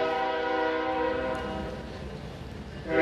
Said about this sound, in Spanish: el tren Esperamos a que pase tantito.